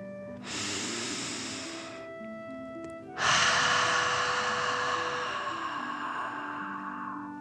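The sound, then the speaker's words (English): Deep breathing for a relaxation exercise, filling the chest and belly: one long breath in, a short pause, then a longer breath out. Both breaths are soft and airy, over steady, sustained musical tones. “Fill up your chest and belly. Deep breath in and out.”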